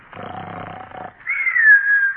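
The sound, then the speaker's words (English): A man snoring, an elderly grandfather dozing off at a club meeting: a raspy, rattling inhale is followed by a higher, whistling exhale that wavers slightly in pitch. The snore is heard alone, without talk. “He always gets to snoring just when we start the meeting.”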